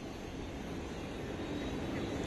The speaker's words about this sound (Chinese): 目前您所看到的画面就是来自于北京首都国际机场的最新现场画面。刚刚美国总统特朗普已经是登上了空军一号